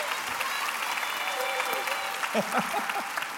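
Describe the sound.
Audience applause greets a guest speaker named Shelby as she is invited up to share her story at a morning gathering. The steady clapping runs throughout, and a voice speaks over it toward the end.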